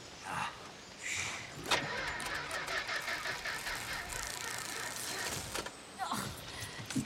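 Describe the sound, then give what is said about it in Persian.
Car engine cranking over and over without catching: a continuous whirring, grinding starter drone that holds at a steady level for several seconds, with a brief sharper burst near the start. “روشن نمیشه. دوباره استارت بزن.”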